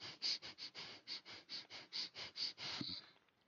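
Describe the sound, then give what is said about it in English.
Rapid, shallow breaths drawn into the chest with a tightened belly, many short airy pulses in a steady rhythm that fade out at the end. “If you want to feel anxious, tighten your belly and breathe into your chest 5 times.”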